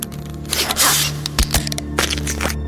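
A sci-fi device hums and whirs as it calibrates before taking a brain sample in a radio drama, a steady low drone overlaid with irregular bursts of hissing, scraping electronic noise.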